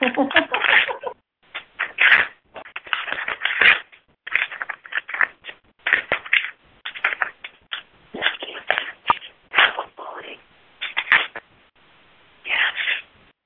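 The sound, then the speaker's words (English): Paper is ripped up by hand in many rough, crackling tearing bursts, some quick and some drawn out, coming in an irregular series with short pauses between them. “I still get to hear the ripping up.”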